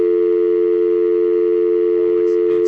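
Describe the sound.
A steady telephone dial tone hums loud and unbroken on a phone line as a call is about to be dialed, holding one constant pitch throughout.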